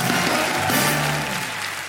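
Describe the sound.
A comedy-show audience in Montreux applauds as a comedian is introduced, a steady, dense wash of clapping that stays loud throughout.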